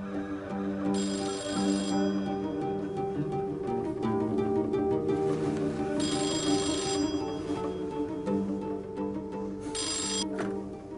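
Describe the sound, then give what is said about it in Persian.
A telephone rings in several separate bursts of a bright, trilling electronic tone, repeating at intervals over a steady, low tonal background. “بیچاره کیمیا یه ساعت به یه ساعت داره زنگ میزنه بنده خدا”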